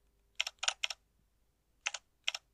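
Keystrokes on a computer keyboard while code is typed, a few quick clusters of crisp clicks separated by short pauses.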